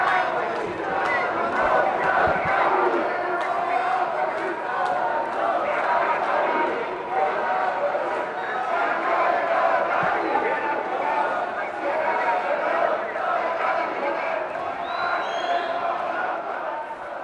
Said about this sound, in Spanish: Al fondo vemos la movilización, una de estas dos movilizaciones, y vamos a ver el sonido que nos está llegando en directo.